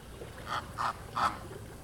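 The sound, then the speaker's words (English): Pink flamingos in a flock at a gurgling pond in Zoo Miami give three nasal, goose-like honks, spaced apart and rising slightly in loudness, over a steady low background murmur. “A flock of pink flamingos is chilling casually in a gurgling pond”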